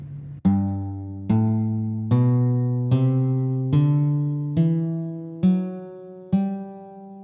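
Eight plucked guitar notes climb step by step through a major scale pattern that starts from G on the sixth string. The notes are evenly spaced, and each rings clearly and decays before the next. No other sound is heard.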